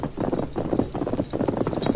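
Horse hooves galloping, a continuous rapid clatter of hoofbeats in a steady, rolling rhythm at moderate loudness.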